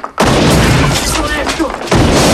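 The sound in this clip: Gunshots blast a poker machine and then a glass-strewn table in two loud, sharp bursts. The first is followed by a long crashing decay, and the second hits near the end.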